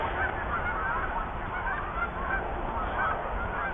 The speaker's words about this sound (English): There's another 12 geese taking off, and they're all circling above